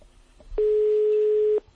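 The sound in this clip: Telephone tone heard while placing a phone call: a single steady, loud electronic beep lasting about a second, with faint background noise before and after.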